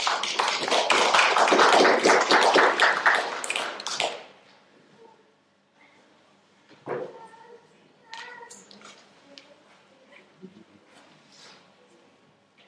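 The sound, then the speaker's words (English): Audience applause as two speakers come to the front: loud, dense clapping for about four seconds that then stops abruptly, followed by quieter scattered sounds and voices. “So let's give them a hand as they come down.”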